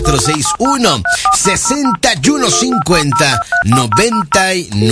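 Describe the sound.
Telephone keypad dialing tones sound while a call is placed to a phone booth. Many short, steady dual-tone beeps follow one another in quick succession, with a voice talking throughout.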